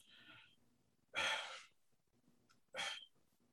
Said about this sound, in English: I know you hear me just breathing so hard.